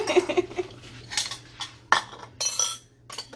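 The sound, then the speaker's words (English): A metal mixer beater knocked against a bowl to shake off meringue batter: a few sharp clinks and taps in quick, uneven succession, the loudest near the middle, with no talk. “I'm just going to knock all that off that beater.”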